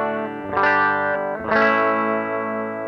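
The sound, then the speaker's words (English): Electric guitar played through an amp without pedals in a clean, chimey tone, sounding two chords that each ring out and sustain, the second struck about a second after the first. “So without any pedals, I sound like it's a pretty clean tone.”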